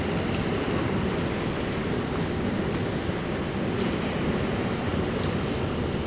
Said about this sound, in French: Laissons-nous bercer par la marée.